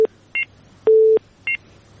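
Telephone dialing tones while a radio call-in is being connected: a few short, bright two-note beeps and one longer, lower steady tone, spaced apart over a faint hum.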